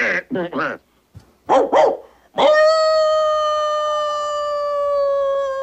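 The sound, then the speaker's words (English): A dog howls in one long, sustained wail of about three seconds that falls slightly in pitch, after a few short voiced yelps or words. “It'd be up to me to reach the colonel. He'd be the only one in barking range. Oh, you'll never reach him at this hour. Well, I can try. I'll bark all night if I have to.”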